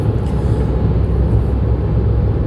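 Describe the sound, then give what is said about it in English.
Steady, dense low roar of a car cruising on a highway at about 78 mph with a slowly leaking rear passenger tire, constant and loud throughout without talk. “I'm on the highway, going about 78, so it's going to sound really loud.”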